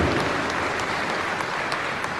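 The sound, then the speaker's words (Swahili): Sustained applause from a crowd at a formal ceremony, dense steady clapping throughout at an even moderate level, with no voices over it. “Makofi mengi tafadhali. Makofi yaendelee mengi tafadhali.”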